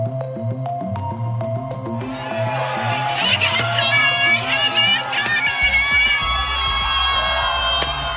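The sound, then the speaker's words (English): Crowd of supporters cheering and shouting in a Los Angeles street, celebrating the end of a pop singer's conservatorship. A steady roar with high yells and whistles grows fuller and louder after about two seconds and stays dense to the end. “That is the sound of the Free Britney supporters on the streets of LA on Friday, Californian time, celebrating the news that Britney Spears was finally free of the conservatorship,”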